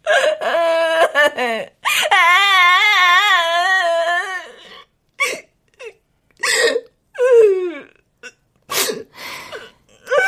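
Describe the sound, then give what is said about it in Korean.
A woman wails and sobs loudly. Long quavering cries give way to short, choked, hiccuping sobs with gaps between them. “다 울었냐? 어, 다 울었어.”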